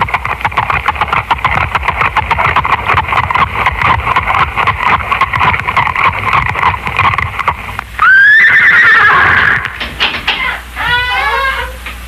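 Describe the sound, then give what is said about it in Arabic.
Horses' hooves approaching outside beat a rapid, steady clip-clop for about eight seconds, then loud, shrill neighing and whinnying take over, with no voices. “اسمع. ماذا؟ أقدام خيل في خارج. لعل الأمير أرسلان قد بعث من يستعجلني.”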